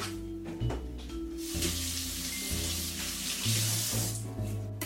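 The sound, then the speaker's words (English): Celery is rinsed under running tap water to wash dirt from between its layers, producing a steady, soft watery hiss that swells midway, under background music. “celery can kind of just hold a lot of dirt in the in-between layers, so I'm gonna give that a quick rinse”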